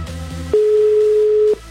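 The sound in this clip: Telephone ringing tone heard while a call to Cuautitlán is dialled: a single steady, mid-pitched beep lasting about a second, clear and loud over a low background hum.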